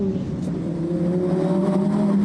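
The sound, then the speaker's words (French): A V10 car engine drones loudly and steadily during gear changes. Its low, harmonic note holds a fairly constant pitch throughout, with no clear breaks between gears. “Oh, et puis ce son du V10 là. À chaque fois que je passe un rapport supérieur ou inférieur,”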